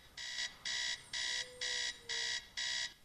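An alarm clock rings in a bedroom with a run of bright electronic beeps, each a short buzzing burst separated by brief gaps in a steady, even rhythm, repeating several times with nothing else heard.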